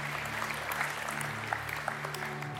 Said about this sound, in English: Hey, why don't we just put our hands together and just celebrate with those who prayed that prayer.